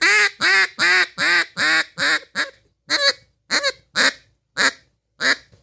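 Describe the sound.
A handheld goose call imitates content geese whining and clucking: a run of many short, nasal honks, quick and evenly spaced at first, then sparser clucks with gaps between them, played alone without talk.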